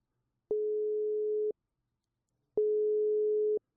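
A telephone call tone sounds while a number is being dialed out: two steady, mid-pitched one-second beeps separated by a short silence, clean and alone.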